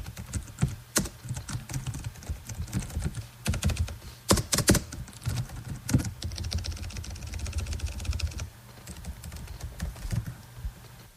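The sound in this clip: Rapid typing on a computer keyboard while news copy is rewritten: a long run of many irregular clicks and key thunks, dense in bursts with brief pauses, and no talking.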